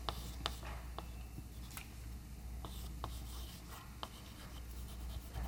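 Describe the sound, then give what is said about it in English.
Faint handwriting as a capital Greek beta is written, heard as a few short, scratchy ticks and soft rubbing strokes spaced irregularly over a quiet, low hum. “Here, again, I'll work in BV and I'll write capital beta.”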